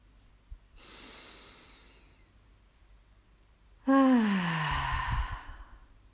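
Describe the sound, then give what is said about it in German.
A deep breath in and out during a guided relaxation: a soft, faint inhale, then a pause, then a louder sighing exhale whose voiced tone slides downward before fading. “Ja, dann lade ich dich ein, nochmal einen letzten gemeinsamen Atemzug zu nehmen.”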